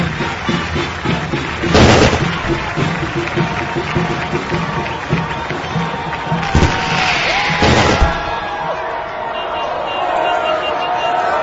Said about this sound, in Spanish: Momento de los fuegos artificiales también.